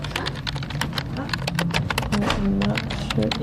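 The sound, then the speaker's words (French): Fingers type on a computer keyboard to write up care observations, producing rapid, irregular key clicks with a brief voice murmuring underneath. “je dois aller vers l'ordinateur pour écrire mes observations”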